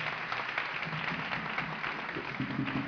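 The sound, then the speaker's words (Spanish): Audience applause for a drummer at a music-school Santa Cecilia concert: steady, continuous clapping from many hands, muffled and moderately quiet, holding an even level throughout. “A la batería, Sergi Perales, que es un maestro de la percusión y de todo lo que suena y hace ritmo, un maestro. Aquí tenemos a Sergi Perales. Un aplauso muy fuerte para él.”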